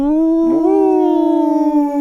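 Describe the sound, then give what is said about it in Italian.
A wolf howls in one long, loud, sustained tone, standing alone. Its pitch dips briefly early on, then rises and holds before sinking slowly toward the end. “Dei lupi, che c'entrano?”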